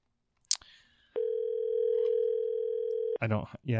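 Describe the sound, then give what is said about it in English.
An outgoing phone call produces one long, steady ringing tone after a click and soft hiss, then stops abruptly as a voice begins speaking. “we're going to give it a go. I don't have high hopes, but we're going to leave him a voicemail, okay? If he doesn't answer.”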